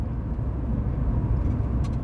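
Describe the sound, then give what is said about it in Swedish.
A black hearse drives through traffic with a continuous low engine and road rumble, steady and even throughout, with no voices. “Den svarta bilen glider fram bland trafiken som vilket som helst fordon.”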